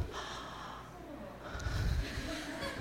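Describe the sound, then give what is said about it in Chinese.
Breath drawn in through the mouth during a breathing exercise: faint, airy, continuous breath noise with a brief low, rougher swell partway through. “先跟我做一次吸气，嘴巴用嘴巴吸气，不要用鼻子。”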